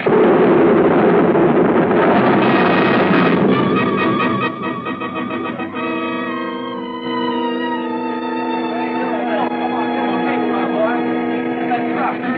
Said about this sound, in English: bomb! It stopped. It's overhead. Fall to the ground